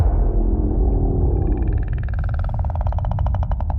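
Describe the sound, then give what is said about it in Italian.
A whale vocalization from a film about a diver who ends up inside a whale: a deep, rumbling drone that turns into a strong, rapidly pulsing buzzy call over the second half, with no talking. “Sembra un alieno più che una balena.”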